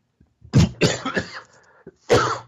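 A few harsh, throaty coughs come in quick bursts, followed by a short rasping throat clearing and one last loud cough, all fairly quiet with no talking.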